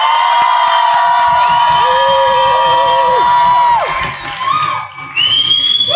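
Conference audience cheering, with loud whoops and whistles over a continuous roar of crowd noise that dips briefly before surging again.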